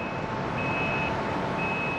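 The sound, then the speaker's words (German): High, steady warning tones come from a huge mobile gangway slowly driving up to a ferry's door. Two long stretches of beeping are separated by a short gap, over a constant low mechanical rumble. “An diese Tür fährt nun ganz langsam eine riesige Gangway heran, wie man sie auch von Flughäfen kennt.”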